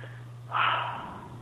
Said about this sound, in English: just take a deep breath